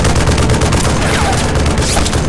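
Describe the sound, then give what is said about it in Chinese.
Sustained gunfire from a fusillade during reconnaissance by fire: dense, loud, overlapping shots and booms blend into a continuous roar with no clear gaps. “继续射击。”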